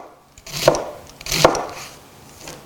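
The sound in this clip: Knife chopping onion while preparing a Thanksgiving-leftovers dish, two sharp, distinct cutting thuds about a second apart with quiet pauses between them.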